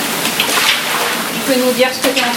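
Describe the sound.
Floodwater being pushed across a flooded ground floor, a steady loud wash and slosh of water, with a voice heard briefly toward the end.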